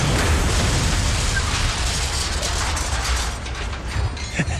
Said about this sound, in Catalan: el cotxe creua la ratlla vermella que els etarres han pintat a la paret. Ai. És el punt exacte on han de fer explotar la càrrega.